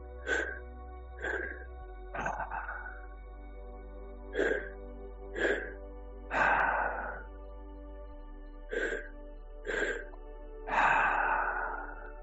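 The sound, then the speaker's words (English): Deep, audible breaths taken during a guided breathing exercise, arriving as a steady series of breathy bursts separated by short pauses, with a faint, steady tonal hum underneath. “We'll do a couple more breaths here.”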